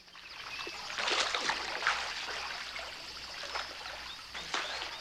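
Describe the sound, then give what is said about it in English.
Soft river water flows and laps as a shirt and trousers are rinsed and someone swims. The wash is continuous and fairly quiet, with a few brighter splashes. “Norma is rinsing Reuben's shirt and trousers in the river while he swims.”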